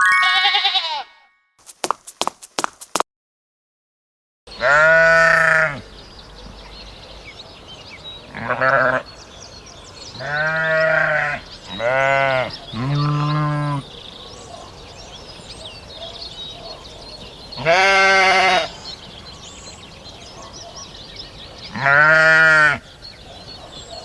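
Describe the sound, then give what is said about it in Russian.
Sheep bleat in repeated wavering calls spaced out with pauses between them, each call loud and nasal, after a brief stretch of clicks and a silent gap at the start. “Овца. Овца.”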